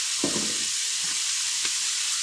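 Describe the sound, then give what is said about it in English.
Shaved beef steak seasoned with onion powder, pepper and salt sizzles steadily in a pan, a constant bright hiss with a few soft low bumps from the meat being moved. “Little pepper and a little salt. Now shaved steak, which I got, cooks up pretty quick.”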